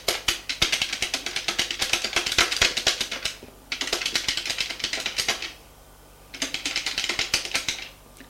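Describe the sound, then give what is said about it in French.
Typing on a computer keyboard: rapid, steady key clicks come in three long runs separated by brief pauses, with no voices. “La femme tape sur son ordinateur.”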